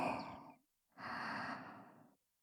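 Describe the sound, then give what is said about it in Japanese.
Slow, soft breathing during a guided breathing exercise: one breath fades out, then after a short pause a longer, steady breath follows, both quiet and airy with no voices. “細く長く吐いて、もう一度吸って、”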